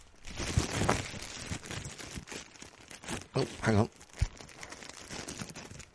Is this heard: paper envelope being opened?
yes